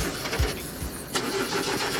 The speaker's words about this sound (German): Draußen steht eine Limousine für euch. Steigt mal ein und anlassen.